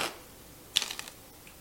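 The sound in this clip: A deck of playing cards is shuffled during a card trick: a brief soft rustle at the start, then a quick cluster of crisp, sharp clicking ticks from the riffle, with no voices.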